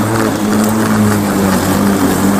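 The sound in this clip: A voice imitates a jet ski with a steady, buzzing motor-like drone held at an even pitch and loudness through the whole clip.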